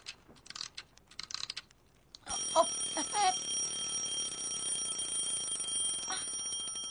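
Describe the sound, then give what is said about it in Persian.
An alarm rings loudly and continuously from about two seconds in to the end, a sustained bright metallic ringing preceded by a few short clicks and taps. “آره، چه وقت زنگ زدنه؟ همه رو خراب کردیم. اصلا خاموشش کن”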